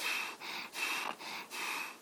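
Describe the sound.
A neighbour's breathing is faint and raspy, with several airy breaths in quick, regular succession separated by short pauses. A thin steady hiss runs underneath.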